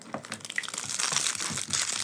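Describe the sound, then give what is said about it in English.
Crisp plastic crinkling as a gachapon packet is handled and opened. The rustling crackle is steady and fairly quiet across a couple of seconds, and no one speaks. “No, I like opening the packet.”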